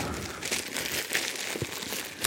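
Plastic film is peeled off a white cardboard box holding Apple AirPods Max headphones, producing continuous bright crinkling and rustling with a few louder crackles scattered throughout.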